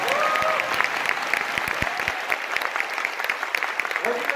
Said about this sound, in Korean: 이 정도면 박수 한번 쳐주셔야 됩니다.